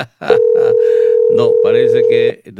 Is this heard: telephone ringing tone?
yes